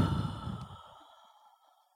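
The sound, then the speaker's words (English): A deep breath out is released as a soft, sighing exhale. The breathy sound fades steadily to near silence over about two seconds. “Let's take a deep breath in and exhale.”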